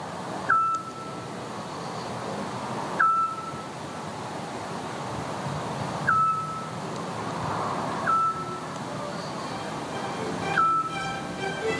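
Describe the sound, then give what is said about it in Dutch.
Eurasian scops owl, a vagrant bird, calling: five short, clear, mid-pitched whistled notes spaced about two to three seconds apart over a steady background hiss. “Dag dwaalgast. Dag dwergooruil. Dank voor je geluid.”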